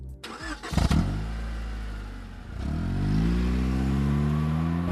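Car engine starting and accelerating as a sound effect: a clattering crank at the start settles into a steady idle, then the engine revs up and its pitch climbs and holds high.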